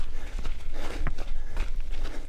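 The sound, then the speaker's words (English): Running footsteps on a desert path in Arizona, many quick thuds in a steady, regular rhythm over a low rumbling background. “and we're going for a run. A run on a desert path near his house.”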